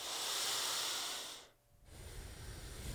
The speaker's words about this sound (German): Dann nimm ein, zwei tiefere Atemzüge.